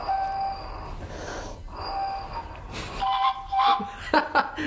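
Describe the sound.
Breathy whistling notes from a hollow clay flute shaped like a woman, with small finger holes, come in a few short, faint tones.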